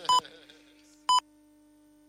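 Hourly radio time-signal pips marking nine in the evening: short, evenly spaced electronic beeps about a second apart. Two full tones are followed by the onset of a third at the very end, with a faint steady hum between them.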